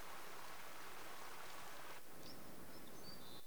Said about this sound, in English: Now it's a rainy, misty day.